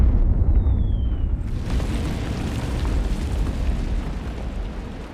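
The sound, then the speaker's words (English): German artillery bombarding a city makes a dense, continuous booming rumble that is loud and heavy in the low end. A faint tone sounds briefly before the barrage swells to full strength. “German artillery bombard the city morning to night.”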